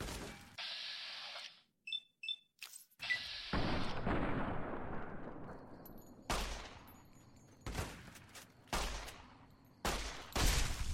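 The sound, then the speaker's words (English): An explosion sounds during video game combat among a burst of gunfire. Sharp cracks are followed by a long, rumbling, decaying boom, then many more scattered shots, all fairly faint. “Whoa. He exploded real good.”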